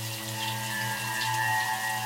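A shower runs in a bathroom, giving a steady, even hiss of spraying water that stays constant throughout with no other sounds.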